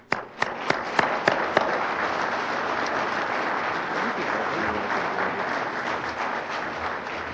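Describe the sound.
An audience applauds to welcome a speaker at a lecture, opening with a few separate sharp claps before settling into loud, dense, sustained clapping that carries on to the end.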